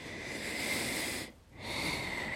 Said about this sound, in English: Sorry, I take deep breaths a lot.